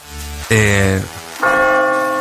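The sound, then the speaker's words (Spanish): Church bells ring in a few resonant strokes, each a loud strike followed by long, humming harmonic tones that hang and slowly fade. “Están las campanas.”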